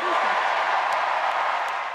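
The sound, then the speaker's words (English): Applause for former First Lady Michelle Obama at the Democratic National Convention in Chicago: a dense, continuous wash of crowd clapping that stays loud and steady throughout. “Huge applause for former First Lady Michelle Obama at the Democratic National Convention here in Chicago.”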